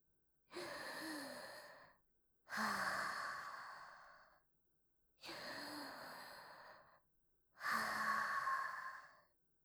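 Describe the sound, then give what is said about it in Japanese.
Deep breathing taken in a brother's room: four long, slow breaths in a steady rhythm, each a full airy rush with a faint voiced edge, heard alone with no talk. “一応深呼吸しておこう。”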